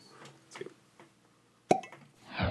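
A cork is pulled from a bottle of Scotch whisky, giving a single sharp pop after a few faint handling sounds, followed by a brief swell of noise.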